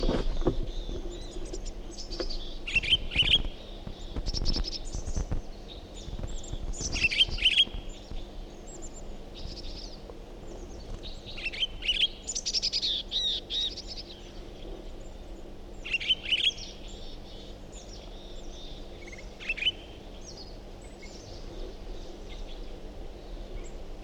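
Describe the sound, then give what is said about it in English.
Birdsong in short, bright, high chirping phrases recurs every few seconds over a faint, steady low drone. “Different bird.”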